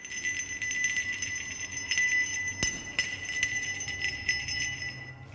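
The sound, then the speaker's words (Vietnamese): A small bronze hand bell is shaken and rings with a bright, high, sustained metallic tone. Many quick, jangling strikes run through it and keep the ringing going at a fairly soft level. “Tiếng chuông vang lên lanh lảnh xoáy sâu vào tai.”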